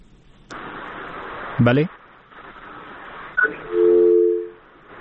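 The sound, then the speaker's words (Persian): A phone-in caller's line drops on a radio call-in show. A host's voice and a short crackling burst come first, then a sustained electronic tone sounds near the end. “بله بفرمایید، صحبت بکنین لطفا. تماس این شنونده ما قطع شد”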